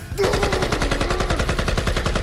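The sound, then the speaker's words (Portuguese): Rapid automatic gunfire from a freshly reloaded magazine after the trigger is pulled: a loud, continuous burst of many fast, evenly spaced shots that carries on to the end without a pause. “Pôs um novo pente de balas e apertou o gatilho.”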